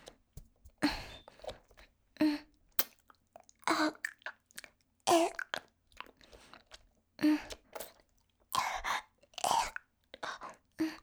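Someone chewing a lollipop, with many crisp, crunchy bites and chews in an uneven rhythm, separated by short quiet gaps.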